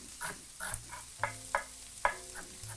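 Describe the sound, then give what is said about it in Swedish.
Corn frying in a pan being stirred: a quiet, continuous sizzle broken by several short scraping strokes of a utensil against the pan. “Jag går och rör lite i den majs här.”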